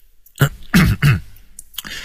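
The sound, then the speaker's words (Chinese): A man clears his throat with three strong, rough, guttural bursts in quick succession, then a softer trailing rasp. “他只好清了清喉咙”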